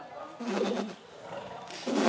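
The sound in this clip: Birds call back and forth to one another in soft, low cooing, with two short warbling bursts separated by a brief lull.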